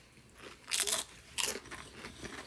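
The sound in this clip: Crunching bites of a cheesy food being tasted: two loud, crisp crunches about half a second apart, each followed by quieter chewing crackles.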